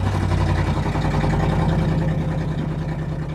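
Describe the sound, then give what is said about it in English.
A car engine running with its catalytic converter cut out gives a loud, rough, steady exhaust rumble that drones on at an even level for the whole clip, with no talking. “That is a car that's had its catalytic converter cut out of it.”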